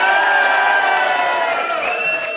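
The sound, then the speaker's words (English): A crowd at a GAA club cheers loudly for Tyrone ahead of the All-Ireland final against Dublin. High whoops and shouts ride over a sustained roar. “We're here tonight, of course, Tyrone facing Dublin on Sunday in the All-Ireland final, and let's have another big cheer for Tyrone.”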